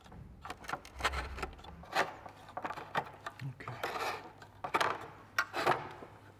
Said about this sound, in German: Das ist mein Ziehbock. Den habe ich mir gemacht, um eben Stiele abzuziehen oder Stiele herzustellen.